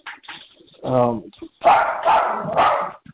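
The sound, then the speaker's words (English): A dog barks indoors: a drawn-out whining yelp followed by a few sharp, loud barks in quick succession. “I apologize for the dog.”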